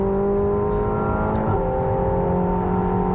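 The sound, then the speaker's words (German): Engine of a McLaren 720S under throttle as the car accelerates for an airbrake test: a loud, steady, harmonic roar that holds level and strong throughout. “So, dann testen wir mal die Aerobremse. Gas gibt”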